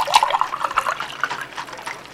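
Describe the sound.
Cold lemon water poured into a glass, a brief, light trickle with quick bubbling glugs, moderately loud and alone without voices.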